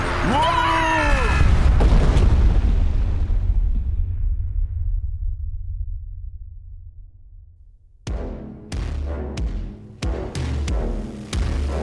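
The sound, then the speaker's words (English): Torpedo impact explosion striking a vessel: a brief voice at the start gives way to a deep booming rumble that fades slowly over several seconds, followed by a burst of sharp, loud crashing hits. “But the torpedo coming towards us. Brace for the impact!”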